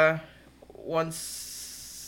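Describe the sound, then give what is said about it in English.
A man's voice stretches a long hissing "s" onto the end of a word: brief speech gives way to a steady, bright, sustained hiss that holds evenly for about a second. “Okay, he's not turning into a snake, just to be clear. I was like, what, snakes? Oh, yes, because I was, yeah. Added a long S onto whatever the hell I was trying to say.”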